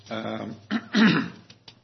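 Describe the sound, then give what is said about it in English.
A person clears their throat in a few rough, low bursts, the longest and loudest near the middle, heard alone without talk. “excuse me, I don't know why my throat's giving me a hard time today.”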